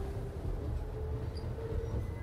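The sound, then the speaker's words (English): Train interior ambience, a steady low rumble of the moving carriage with a faint sustained whine above it, continuous and even throughout. “you know, we are on the train.”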